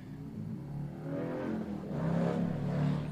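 Motorcycles revving and passing produce a steady, gritty low engine rumble that swells louder and rougher toward the end, with no talking.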